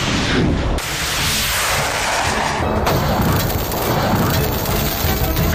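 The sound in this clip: A surface-to-air missile fires at incoming target drones during a live-fire exercise, a loud, dense, continuous roar that fills the whole clip, dipping only briefly near the start before pressing on at full strength.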